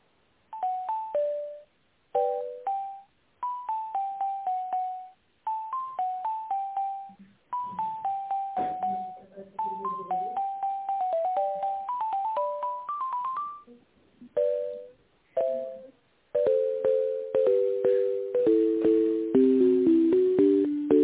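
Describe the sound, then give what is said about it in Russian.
Electronic hold music plays while a telephone call is transferred: a tinny synthesized melody of short, bright notes in repeating phrases, steady and fairly loud, with no voices. “Одну минуту, я вас переключу.”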